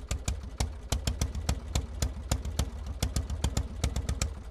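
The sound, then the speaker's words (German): An early gas engine from 1879 runs for the first time, giving a quick, steady train of many sharp, clattering knocks in an even chugging rhythm at low volume. “Am Silvesterabend 1879 springt sein Motor erstmals an.”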